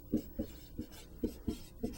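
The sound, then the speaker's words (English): Writing strokes as someone writes out a math equation: six short, scratchy taps in an uneven rhythm, faint and alone. “And before I write that down and continue, I really should write”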